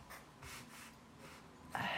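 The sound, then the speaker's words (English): Faint scratching of someone writing something down in a few short, soft strokes, with a slightly louder scratch near the end. “Hey, I'm writing it down.”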